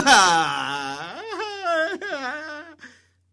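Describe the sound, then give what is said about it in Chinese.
A storyteller's voice imitates a loud, anguished wailing cry, one long drawn-out howl that starts strong, wavers and dips in pitch, then breaks off into silence near the end. “你要问了，他哭的是这动静吗？我跟你说，只比我这声还惨，我学的还没到位。”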